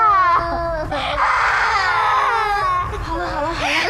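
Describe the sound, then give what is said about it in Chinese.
A child crying after being hit in a scuffle, continuous high-pitched wailing and sobbing with wavering pitch, loud and sustained throughout. “别哭了，把妹妹都吵醒了。”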